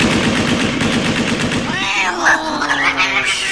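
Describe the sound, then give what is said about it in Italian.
Rapid automatic fire from an AK-15 rifle shot into the air: a fast, dense stream of shots for just under two seconds that then cuts off, followed by wavering higher tones. “Tieni. Spara 200 colpi in aria con questo AK-15.”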